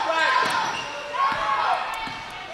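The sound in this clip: A basketball dribbled on court during a women's game: three dull, evenly spaced bounces over steady crowd noise and voices.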